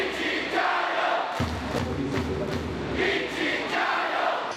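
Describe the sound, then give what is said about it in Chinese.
Basketball fans of the Changsha team chant encouragement for the opposing Zhangjiajie team during a game. The crowd chanting is loud and continuous, rising and falling in repeated rhythmic bursts. “面对悬殊的比分，长沙队球迷反而给张家界队喊起了加油。”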